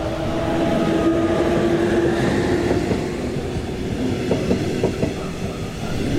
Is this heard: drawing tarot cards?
no